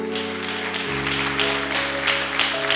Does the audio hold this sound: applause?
yes